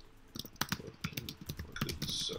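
Someone types a comment on a computer keyboard. Many quick, irregular key clicks and taps come in bursts, fairly quiet, with no talking.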